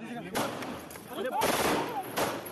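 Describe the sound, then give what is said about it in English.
Pistol shots from a gunman reaching over police shoulders to fire at a former Indian lawmaker under police escort: a few sharp bursts rise out of continuous, noisy background sound. “A gunman is seen reaching over the shoulders of police to point a pistol at the Temple of Ahmed, whose turban is blown off as the gun discharges.”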